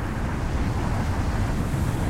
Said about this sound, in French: Aussitôt, un flash lumineux accompagné d'une violente bourrasque secoue toute la forêt.